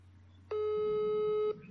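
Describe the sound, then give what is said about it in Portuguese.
An outgoing WhatsApp voice call gives a ringing tone: a single steady mid-pitched beep lasting about a second, then silence, over faint low background noise. “tá chamando o WhatsApp.”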